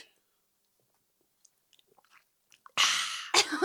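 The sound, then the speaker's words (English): Gulping a coffee mixture: a few faint mouth clicks, then two loud, noisy slurping swallows near the end, with no talking. “I'm just going to have a glug. Listeners, I have to have a glug. What am I doing now? That ASMR? What am I doing? ASMR. Just having a glug of coffee mixture.”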